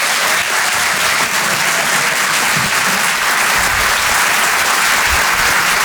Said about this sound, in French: Faites un maximum de bruit, s'il vous plaît, pour Régis Maillot.